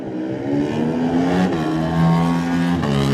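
A Kawasaki racing sport bike pulls away at the start of a road race, its loud engine howling up in pitch, dropping briefly at two gear changes, then climbing again.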